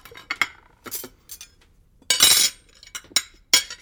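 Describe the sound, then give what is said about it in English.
Plates and silverware clink at a table in a posh restaurant: several sharp, bright metallic and ceramic taps separated by short pauses, with a denser clattering burst midway, then a few more crisp clinks. “Here's the sound of their plates and silverware.”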